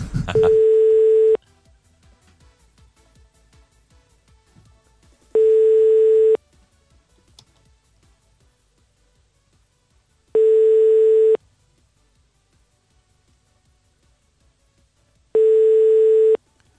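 Telephone ringback tone on an unanswered call: four steady, evenly spaced one-second tone bursts separated by long silent gaps, loud and alone.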